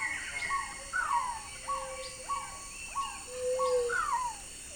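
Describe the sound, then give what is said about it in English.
Birds calling together: a little cuckoo's soft squeals, a black-tailed trogon's repeated musical notes, a white-shouldered antbird's song and two pale-vented pigeons' soft coos. A series of clear, falling whistled notes rides over faint, lower tones. “The soft squeals of a little cuckoo. The repeated musical notes of a black-tailed trogon, the song of a white-shouldered antbird, and the soft coos of two pale-vented pigeons.”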